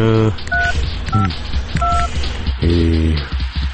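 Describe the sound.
Touch-tone keypad beeps ring out as a telephone number is dialed: three short dual-pitch tones in quick succession, with a voice speaking at the start and again afterward.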